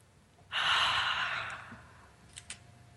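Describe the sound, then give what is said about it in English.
A single deep breath during a guided relaxation exercise: a loud, airy rush of air swells suddenly, then tapers off gradually, followed by two faint clicks. “So go ahead and take a nice deep breath.”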